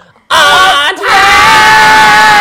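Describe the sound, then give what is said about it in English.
A crowd of voices yells and cheers in an animated story about letters and numbers. The cheer starts abruptly and loud, dips briefly, then carries on as one sustained shout. “Three cheers for letters! Long live numbers!”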